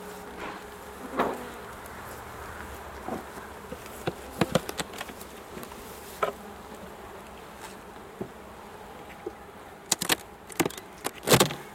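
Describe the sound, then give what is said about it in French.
Honeybees buzz in a continuous low drone as a beehive, calmed with smoke, is opened, with scattered sharp clicks and knocks that cluster toward the end. “on leur souffle un petit peu de fumée et ça permet de pouvoir accéder dans la ruche. On va ouvrir maintenant.”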